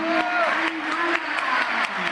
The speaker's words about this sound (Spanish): Ángel Correa, otro campeón del mundo. Aplausos.